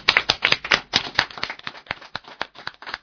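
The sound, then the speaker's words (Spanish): Applause from a few people on a Spanish-language show, heard as irregular, closely spaced hand claps that come in uneven bursts, with a dull, muffled tone throughout. “Un fuerte aplauso”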